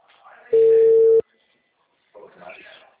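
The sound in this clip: A telephone ringback tone sounds during an outgoing call: one steady, mid-pitched tone held for under a second, with a faint voice just before it and talking resuming after a short silence.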